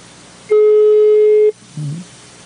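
A telephone ringback tone on an outgoing call: one loud, steady, mid-pitched beep lasting about a second, heard alone, followed by a short low blip.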